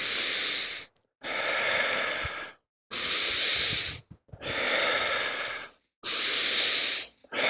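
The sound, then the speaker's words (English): Deep breathing during a guided breathing exercise: five long, loud, hissing breaths, each lasting about a second or more, separated by short silent gaps, with no talk. “And you can take deep breath into the heart.”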